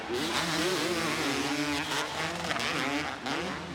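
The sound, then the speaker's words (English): Two-stroke motocross engines wound out during a race, a loud, continuous buzzing roar whose pitch wavers up and down as the throttle is worked. “Awesome to hear these two strokes wound out here.”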